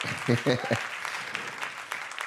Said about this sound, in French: Est-ce qu'on peut les acclamer, s'il vous plaît?